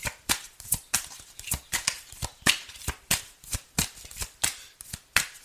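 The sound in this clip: Tarot cards are shuffled in many rapid, crisp riffling snaps and flutters, fairly faint and steady in rhythm, with no voices.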